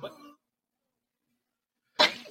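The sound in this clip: A single sharp, loud sneeze bursts out after a short stretch of near silence, preceded by a brief vocal sound.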